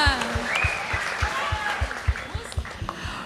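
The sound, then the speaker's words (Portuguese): Crowd clapping hands in a steady rhythmic beat at a Portuguese-language worship gathering, with loud voices shouting and laughing over the even, punchy claps. “Mais uma vez, viva Jesus! Viva! Põe força na tua palma!”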